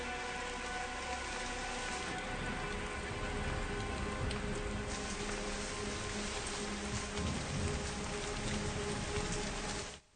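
Heavy rain falling steadily, a dense, even hiss of countless drops pattering on surfaces that holds at a constant level throughout, then cuts off at the very end.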